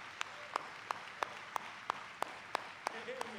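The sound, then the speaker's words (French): A church audience clapping in unison, ten sharp, evenly spaced claps in a brisk steady rhythm, fairly faint over a low murmur of the room. “Et l'église s'est levée pour juste acclamer la déclaration de son assistant.”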